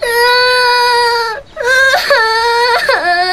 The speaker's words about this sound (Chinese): 怎么又哭了？别哭了。